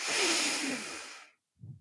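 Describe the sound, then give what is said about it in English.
One long, deep breath in during a guided breathing exercise, a loud airy hiss lasting over a second, then a pause and a brief soft low sound. “Deep breath in.”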